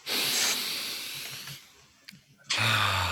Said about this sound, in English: Let's breathe now.